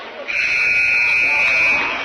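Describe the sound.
A loud, sustained electronic buzzer sounds the end of a basketball game, one steady high-pitched tone lasting nearly two seconds over crowd noise.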